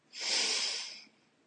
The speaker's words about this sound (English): Exhale all the air out of your mouth. Now close your mouth and breathe in through your nose.